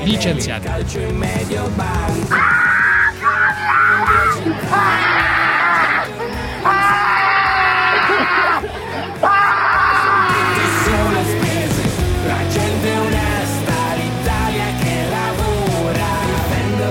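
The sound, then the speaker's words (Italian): A woman screaming and yelling while locked inside a cage, several long, loud, high-pitched cries over a noisy background. “Questo era l'urlo. Erano le urla della Rom dentro il gabbiotto.”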